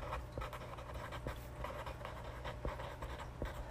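Pen scratching across paper in many short, faint strokes with uneven rhythm over a low steady hum.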